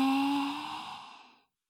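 A deep breath during a guided breathing exercise: a breathy sigh carrying a faint voiced tone that starts strong and fades away over about one and a half seconds.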